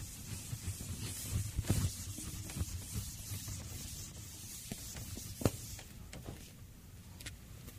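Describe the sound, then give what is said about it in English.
Someone writes on a board: soft, scratchy strokes and light taps in an irregular rhythm, faint and quiet, with no voices. “Now, there's two works here. I'm going to write them on the board.”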